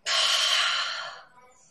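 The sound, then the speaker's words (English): A single long, airy breath during a guided relaxation exercise of breathing in through the nose and out through the mouth, rising abruptly, holding steady and loud, then fading away over about a second and a half. “And so what you want to do is just take a little breather. Breathe in through the nose and out through the mouth.”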